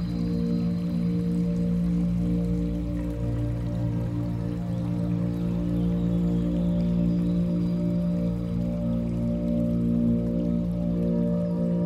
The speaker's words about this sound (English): Allowing yourself to be carried away by the rhythm of the water and the soft murmurings of the night.